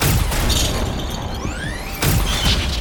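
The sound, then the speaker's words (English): An explosion blast gives a loud, sustained roar of rumbling noise, with a whooshing whistle that rises in pitch before a fresh burst of noise. “Got a little close with that blast there, friend.”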